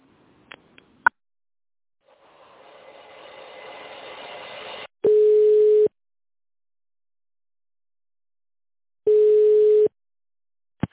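Telephone line tones as a call is connected: a few clicks, a hiss that grows louder, then two long steady ringback tones with a gap of silence between them.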